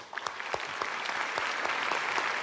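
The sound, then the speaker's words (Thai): Audience applause on a Thai television show, starting with a few scattered claps and quickly swelling into dense, continuous clapping that stays moderately quiet. “ปรบมือเขาหน่อยครับ”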